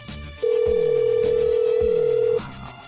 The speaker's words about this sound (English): Phone's ringing forever.